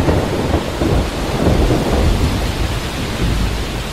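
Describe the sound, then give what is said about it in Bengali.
A thunderstorm with heavy rain and wind: a dense, steady roar of pouring rain over a low, rumbling thunder that fills the whole stretch without pause, and no voices are heard. “বরাত মন্দ, 5-7 মিনিটের মধ্যেই দৈত্যের মতো কালো মেঘটা সারা আকাশ ছেয়ে ফেলল এবং মুষলধারে বৃষ্টি নামল। সেই সঙ্গে ঝড়ের সে কি বেগ!”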